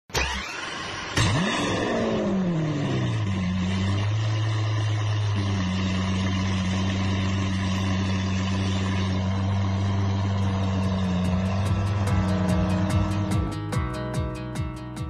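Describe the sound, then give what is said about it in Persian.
A minibus engine cranks and catches with a sharp start, then settles into a steady, low, droning idle; near the end the engine note shifts and pulses as it revs. “پس اگه آماده هستین سوار مینیبوسمون بشیم، کمربندامون رو ببندیم و حرکت کنیم.”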